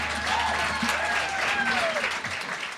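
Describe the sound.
Applause from a live comedy audience at the last event of a Sydney venue, a loud continuous patter of many hands held at an even level throughout, with a voice briefly rising above it.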